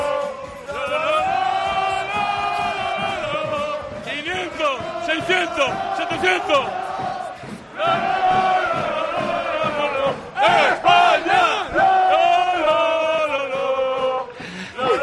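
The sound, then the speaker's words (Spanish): Spanish football fans chant loudly in the streets of Berlin, a crowd singing sustained, rhythmic chants that rise and fall continuously, with shouts and whoops between phrases. “¡España! Va revolucionando en las calles de Berlín. Él es el que inicia los cánticos”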